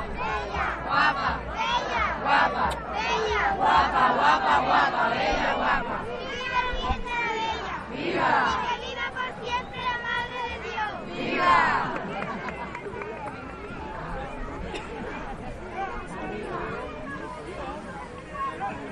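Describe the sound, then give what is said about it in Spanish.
A crowd of devotees loudly shouts repeated vivas to the Virgin de la Bella at a religious romería procession, with many overlapping cries. Dense bursts come early and settle into a steadier roar of voices. “Pues este es el sonido ambiente que tenemos aquí, este precioso sonido que escuchamos, los vivas que se le rezan a Nuestra Señora la Virgen de la Bella.”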